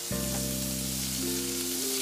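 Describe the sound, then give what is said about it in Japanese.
Sliced long green onions sauté slowly in butter in a pan for a salmon cream soup, giving a steady, gentle sizzle and soft crackle over a low, constant tonal hum. No talking. “長ネギをこう色づかないようにこう茶色くなったりしないようにこうゆっくりとしんなりするまで炒めます”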